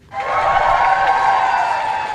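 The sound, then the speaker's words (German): Applause bursts out in front of 10 Downing Street in London as the Ukrainian president steps outside, swelling quickly from nothing into a dense, steady wash of clapping that holds to the end. “Als Volodymyr Selenskyj vor die Downing Street Nummer 10 tritt, brandet Applaus auf.”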